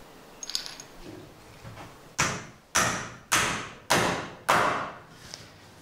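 Five loud, evenly spaced blows drive a metal tip into a wooden ladder fitted with a clamp that keeps the wood from splitting. Each strike rings out briefly and fades before the next, after a few faint knocks.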